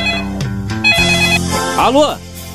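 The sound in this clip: A telephone rings before being answered. The ring is a loud electronic tone of stepped pitched notes and curving pitch sweeps, sounding on its own without other sounds.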